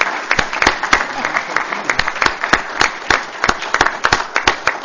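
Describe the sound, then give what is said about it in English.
Applause from an audience at a county event honoring task force members: loud, dense, steady clapping that fills the whole stretch without pause. “I'd just love to give them a hand, if we could.”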